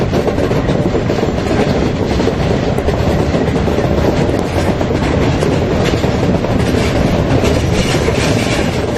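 A locomotive-hauled train runs on rails as it pulls into Halberstadt, a loud, unbroken roar with a fast steady clatter of wheels on track throughout, and no voices heard.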